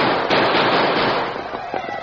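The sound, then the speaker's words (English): A six-gun revolver fired into the air as a radio drama effect, a few sharp bangs over a dense rushing noise, the first crack the strongest. “He dropped Silver's reins and, guiding him with his knees, reached for his six gun and fired into the air.”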